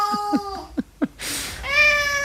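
A cat meows in a few short, rising cries, followed by a brief hiss of noise and then a longer, sustained tonal meow. The cries are clear and fairly loud, with no talking.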